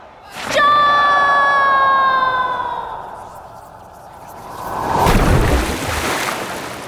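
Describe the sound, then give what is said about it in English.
Ocean waves surge in the open sea during a pirate adventure, a broad rushing wash of water that swells and lingers, following a high whistling tone that slowly falls in pitch. “The waves are pretty powerful way out here in the middle of the ocean.”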